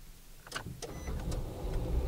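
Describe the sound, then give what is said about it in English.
A car engine starts after an oil change, with the car raised on ramps: a couple of sharp clicks come first, then a steady low rumble builds and holds. “Since we added oil, we could start the car.”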